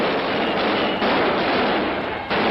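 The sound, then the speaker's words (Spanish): Clamour of a May 1968 student riot in Paris's Latin Quarter, with riot police firing tear gas against stone-throwers: a dense, continuous, noisy roar broken by a few sharper bursts. “La policía antimotines intenta dispersar la manifestación. Una nueva gran batalla de gases lacrimógenos contra piedras estalla en el barrio latino de París.”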